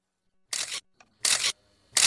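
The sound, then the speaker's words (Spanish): An electric motor-driven aerial reconnaissance camera, powered by an airplane's electrical system and triggered from the cockpit, shoots rapid photos: three harsh mechanical bursts, each about a third of a second, with a faint click between the first two. “Un motor eléctrico la hacía funcionar. Se enchufaba al sistema eléctrico del avión y con un interruptor en la cabina se podían hacer 20, 30, 40, 50 fotos.”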